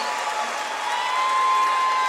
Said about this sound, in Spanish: ¡El aplauso para ellos!